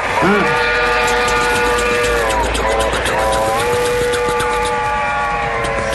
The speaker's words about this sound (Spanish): Me sorprendió el tren, estaba hablando y justo aparece en la estación.